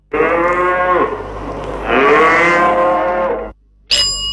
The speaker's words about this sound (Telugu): ఇది గేదె అరుపు.